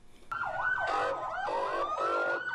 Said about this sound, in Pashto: دا په کوټه ښار کې د تیر شپې د یو ځانمرګي برید وروسته د امبولانسونو او د اطفایې د ګاډو ږغ دی.